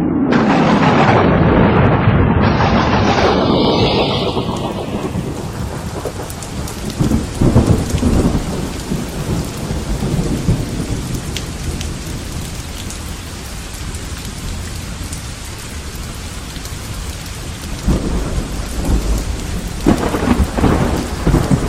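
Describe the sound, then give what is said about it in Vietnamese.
Evening rain falling for a long while with thunder: a loud rolling rumble at the start fades into a steady, dense hiss of rain, and the rumble swells again faintly near the end. “Chín giờ 15 phút tối, đã mưa một hồi khá lâu.”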